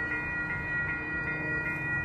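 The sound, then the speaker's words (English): A light rail train approaching on a northbound line to Salt Lake City, heard as a steady low rumble with a sustained high electric whine, even in loudness throughout. “here comes that train that I'm not going to get on.”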